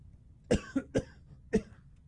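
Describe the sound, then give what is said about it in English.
A person coughing, four short, sharp coughs: three in quick succession, then a brief pause before a final cough. No speech is heard between them. “oh, pardon me. The cough switch didn't work, did it?”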